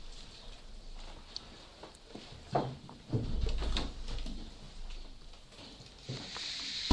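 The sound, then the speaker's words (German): Church windows being shut: a few dull knocks and sliding thuds with light shuffling and rustling between them. “Ja, wir können die Fenster wieder schließen.”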